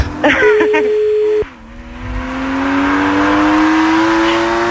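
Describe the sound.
A convertible car's engine revs with a steady drone that cuts off abruptly. A low engine tone then climbs slowly and steadily in pitch as the car accelerates, fairly loud throughout.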